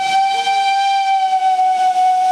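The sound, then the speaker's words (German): A steam locomotive whistle on a heritage-listed train sounds to signal departure: one loud, steady, high-pitched blast with rich overtones, held unbroken for the whole clip. “Ne, der Zugpersonal hat eben den Fahrauftrag gegeben und das Lokpersonal hat den bestätigt mit den Pfiffen und gesagt, so, jetzt geht's los.”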